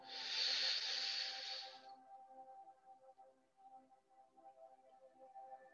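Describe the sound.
A deep inhale during a guided breathing meditation: a steady, airy hiss lasting about two seconds, then only a soft sustained musical drone continues underneath.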